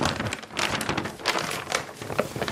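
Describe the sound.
A paper world map being handled, giving many quick crinkling and rustling bursts of dry paper in an uneven rhythm, with no talking.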